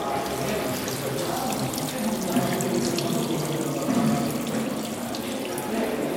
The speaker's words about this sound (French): Là, ici, ça sera la fuite totale de tout le barrage.